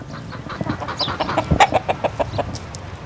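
Chickens clucking on a three-acre North Richmond farm in spring. Many short, irregular clucks and squawks overlap in a busy, uneven stream, fairly loud throughout.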